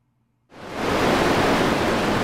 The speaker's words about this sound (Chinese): 于是，小黑全身沾满了各种谷子，在大海中奋力地向前游去。 哎呀，谷子被冲走了！